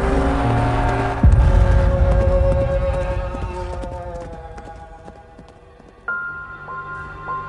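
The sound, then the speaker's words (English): A horse rears and gallops away into fog and trees, with a heavy burst of hoof clatter that swells suddenly, fades steadily, then rises again with a sustained tone near the end. “Scarecrow pulls on the reins and Nightmare rears up and bolts away, disappearing into the fog and trees.”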